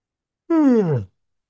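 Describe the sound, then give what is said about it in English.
Someone yawns once, a short voiced exhale whose pitch slides steadily downward, heard alone in quiet. “First, I'm going to yawn.”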